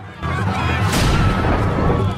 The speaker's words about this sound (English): The firework launcher on the top of Dead Reckoning spins round and fires.